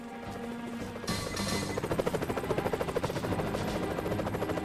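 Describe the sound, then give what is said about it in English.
A helicopter approaches over a road, its rotor beating in a fast, steady chop over engine whine and growing louder. “A helicopter appears, seemingly from nowhere.”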